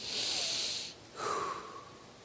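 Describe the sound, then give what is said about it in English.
A deep breath is drawn and released in two long, airy rushes of air about a second each, split by a brief pause. The second rush is slightly wheezy and trails off, loud and close, with no speech. “that that breath that I just breathed is a gift from God who upholds every molecule in the universe?”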